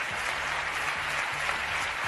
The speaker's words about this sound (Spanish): No aplaudáis, que me corre el tiempo.